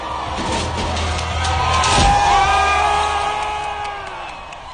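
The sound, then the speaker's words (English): A crowd of protesters cheering as a statue is toppled, a dense roar of voices with whoops and shouts that swells toward the middle and then eases slightly. “The crowd of protesters cheered.”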